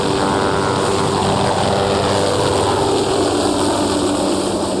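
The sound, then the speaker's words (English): A helicopter lifts off, turns slowly and flies away past a bridge, its rotor and engine a loud, steady roar that fills the whole clip. “Royce looks out the window as the helicopter rises off the ground, slowly turns, then flies off past a bridge.”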